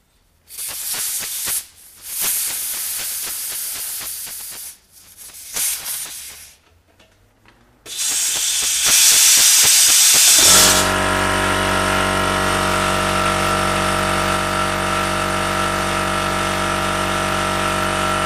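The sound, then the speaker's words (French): Air is let out with a hiss, first in several rough, noisy bursts with short gaps, then as a long, loud, steady hiss carrying a faint humming tone to the end. “Par contre, il faut que je fasse échapper un peu d'air.”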